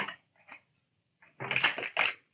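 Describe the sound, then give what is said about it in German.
Crisp papery flicks of playing cards flipping during a shuffle, a few short riffles followed by a denser, louder flurry of rapid snapping. “Man sagt, wenn die Karten flippen, dann kommt da was Gutes bei rum.”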